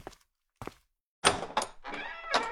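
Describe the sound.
A classroom door is opened: two soft thuds, then a run of louder knocking, rattling bursts, faint overall.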